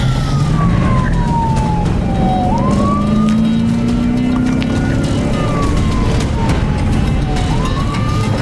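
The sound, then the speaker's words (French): A police car siren wails during a chase, sweeping slowly down and snapping back up in two long cycles, loud and continuous over a low engine drone that climbs gradually in pitch. “c'est stressant, la police, en plus. je reste à l'extérieur, c'est ça? Faut que je reste en dedans, moi. La police te court après, pas vrai?”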